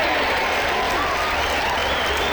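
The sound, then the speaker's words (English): Audience applause fills the moment: dense, steady clapping from many hands, loud and unbroken for a couple of seconds with no voices over it. “Now stop all the clapping.”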